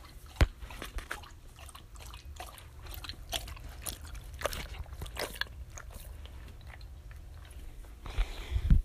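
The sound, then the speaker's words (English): A pet drinking water, making many soft, wet lapping and slurping sounds in an uneven rhythm at a fairly low level. “here we have Puddin drinking water”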